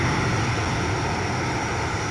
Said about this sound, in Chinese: 随着固定翼反潜巡逻机抵达任务空域